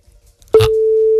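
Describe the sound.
A telephone line tone sounds as a call is placed from a radio station: a short click-like burst, then a single steady electronic tone that holds evenly to the end.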